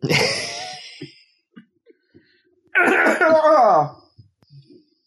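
Coughing fits from someone who inhaled a strong grape drink: a harsh sputtering bout, small breathy catches, then a second strained, wheezy cough burst with a voiced groan.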